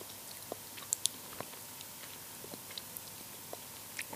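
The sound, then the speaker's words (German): Faint, soft chewing of mild meadow plant buds eaten straight off the stem, heard as a few quiet crunches and small clicks over a hushed background. “Ja, könnt ihr ähm, ruhig mal essen. Diese Knospen, die da gerade dran sind, die sind das Wiesenkaugummi.”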